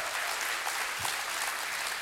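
Church audience applauding to welcome all of its campuses, a dense, steady wash of many hands clapping at an even loud level throughout.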